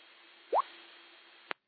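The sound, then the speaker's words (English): A single water drip sound effect: one bright, quick plop with a rising pitch, followed about a second later by a short sharp click against a faint background hiss. “Let me get a drip.”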